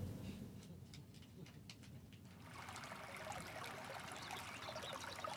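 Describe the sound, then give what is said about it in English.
A trickling stream of water makes a soft, steady babble and dribble. It is faint throughout and grows a little fuller and brighter in the second half. “hey we're at a diving board. Oh, welcome to the yoga. this- Oh, yeah, we're I'll- at a stream now.”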